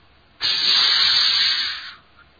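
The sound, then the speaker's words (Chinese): A lit fuse hissing after being lit with a lighter: one loud, steady, bright hiss that starts abruptly and lasts about one and a half seconds, then cuts off and fades. “宋黎拿打火机一点，啪嗤嗤，”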